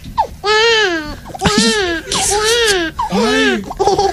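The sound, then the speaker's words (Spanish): A person's voice imitates a crying baby with a series of loud, wavering wails, each rising and falling in pitch and separated by short breaths. “Oiga, yo sé hacer como si llorara un bebé.”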